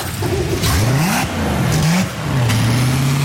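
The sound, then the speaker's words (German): A sterndrive boat engine runs during a hot-water engine flush against quagga mussels. Its mid-pitched drone revs up twice in quick rising sweeps, then settles into a steadier, slightly higher hum. “Ich habe jetzt das Wasser angehängt, das Heisswasser. Und jetzt gehe ich ins Schiff rein und lasse dann laufen. Und dann hört man auch einmal, wie das ein bisschen tönt.”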